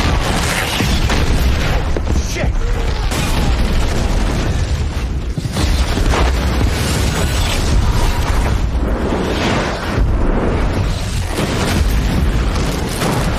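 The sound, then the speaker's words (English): A boathouse explosion: a massive, roaring blast of deep rumble and crackling debris that stays loud and dense for the entire stretch, with no pause or letup. “Boathouse explodes.”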